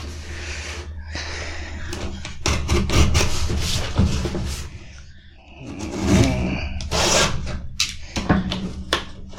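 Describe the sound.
Cardboard rustling and tearing as the other side of a vintage-style Lando action figure box is pried open: many crinkly, scraping bursts of varying loudness over several seconds, with no talking.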